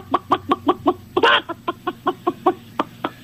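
A chicken clucks in a steady run of many short, sharp clucks, broken near the middle by one louder, harsher squawk.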